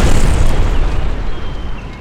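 Mines blowing up in the mountains: a heavy, continuous rumbling roar with rough bursts running through it, loud throughout and thinning slightly toward the end, with no voices.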